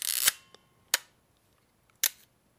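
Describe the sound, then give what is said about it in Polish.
Three sharp, dry mechanical clicks from a Smena Symbol film camera shutter, spaced about a second apart, each brief and crisp against near silence. “To jest Smiena Symbol. To jest aparat”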